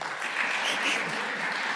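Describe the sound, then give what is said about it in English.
At a church gathering, an audience applauds in a short, dense burst of steady clapping that holds at an even level for the whole moment. “It says here, pause for applause, so...”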